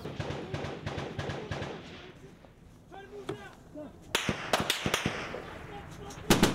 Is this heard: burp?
no